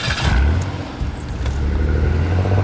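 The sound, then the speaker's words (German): A car drives along with a steady, low engine rumble that holds throughout and swells slightly toward the end, with no voices. “und lenkte mein Auto zum Irish Pub zurück”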